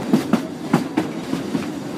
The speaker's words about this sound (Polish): Zabytkowe wagony w doskonałym stanie, pięknie odrestaurowane, mkną przez przepiękną górską krainę, pokonując tunele, do którego właśnie wjeżdżamy,